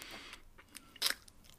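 Someone chews and bites into bread spread with honey: a few soft, moist chewing sounds, then one sharper, louder crunch about midway, then quieter chewing that trails off.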